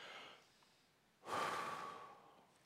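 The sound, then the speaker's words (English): A preacher's single deep breath during a sermon: after a quiet stretch, a loud breathy rush of air starts abruptly and holds for about a second before slowly fading. “So a lot of tension, right? I think, deep breath.”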